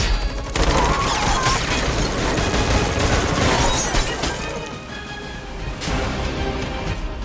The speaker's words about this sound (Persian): به جلیقشون شلیک کنید.